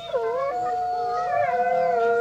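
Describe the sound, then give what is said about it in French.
Wolves howling in long, sustained, overlapping tones, with several voices holding steady pitches together throughout without a break. “Les loups qui se promènent dans les forêts la nuit, avec des yeux qui brillent et qui braillent des « ouh » qui font très peur aux brebis et aux moutons.”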